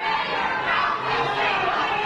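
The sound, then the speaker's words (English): Crowd noise at D.C. Mayor Muriel Bowser's holiday celebration: a continuous, dense murmur of voices and general commotion at a fairly even loudness with no single voice standing out. “What you're hearing is part of D.C. Mayor Muriel Bowser's holiday celebration.”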